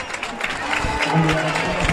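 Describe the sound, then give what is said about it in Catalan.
Stadium crowd applause as Luis Suárez of Nàstic is substituted off during a football match, a steady wash of clapping and crowd noise under a commentator's voice. “Entra al terreny de joc Canté, surt aplaudit Luis Suárez.”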